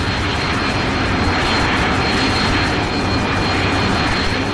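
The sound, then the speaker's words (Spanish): Loud, steady airplane engine roar as the plane leaves the hangar and heads toward the runway, a dense unbroken drone that holds at an even level throughout. “Los guardias desde tierra ven desesperados cómo el avión abandona el hangar, enfilando hacia la pista.”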